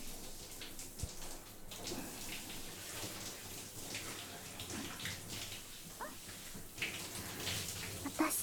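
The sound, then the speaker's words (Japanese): Water rinsing off after a wash, a soft, faint, steady splashing flow like a running tap or bath water, with a few slightly louder splashes near the end. “ささっと洗っちゃって、よし、流しちゃおっか。”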